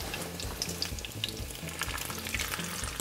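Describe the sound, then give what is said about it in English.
Rolls fry in a pan with a steady sizzle and soft bubbling that crackles evenly throughout, with no voices. “in case it didn't kind of get exciting with bubbling. Let these cook a couple of minutes or until they turn golden brown”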